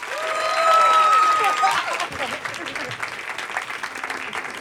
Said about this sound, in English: So if you could please help me give a warm welcome to the stage, Jeanette Jenkins.